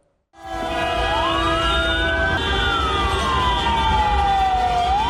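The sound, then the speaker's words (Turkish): An ambulance siren is caught in a street convoy celebrating a football club's promotion. Its loud wail rises slowly, then sinks again, over a dense bed of steady droning tones. “Konvoy sırasında ambulans ilerleyemedi.”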